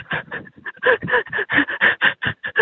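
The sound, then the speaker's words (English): A frightened person breathes heavily and shakily while trying to take deep breaths. Many quick, loud gasping breaths come in a steady rhythm with a faint whimpering tone, and no talk. “Just gotta take some deep breaths.”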